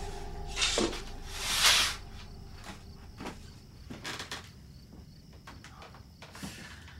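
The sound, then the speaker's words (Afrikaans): Someone closes a window blind and draws a curtain: two broad swishing, rattling bursts close together, followed by a few faint clicks and light rustles against quiet background noise. “Laat ek die blinding toemaak en die gordyn trek.”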